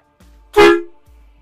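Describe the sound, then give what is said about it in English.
A horn toot sound effect: one loud, brassy blast lasting about half a second that swells quickly and then fades, set against a low steady hum. “Boss horn toot for Dave.”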